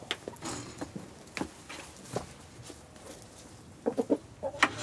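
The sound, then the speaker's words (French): Hens cluck in a village farmyard of chickens and geese at Amblin-les-Prés, between Arras and Douai. The calls are faint and scattered at first, then a quick run of louder clucks comes near the end. “Rendez-vous cette fois au cœur d'une basse-cour. Elle se situe dans le village d'Amblin-les-Prés, entre Arras et Douai. Discutons avec les poules et les oies.”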